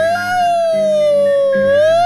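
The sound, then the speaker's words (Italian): A siren wails loudly and continuously with a rich, buzzy tone. Its pitch dips slightly and then climbs again near the end, over a low background rumble. “la sirena questa”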